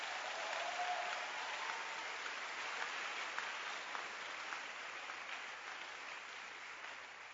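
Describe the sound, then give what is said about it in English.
A church audience claps hands together in sustained, dense applause that stays steady and loud throughout, with no talking over it. “Is it a blessing? Then show it with a hand clap unto Jesus.”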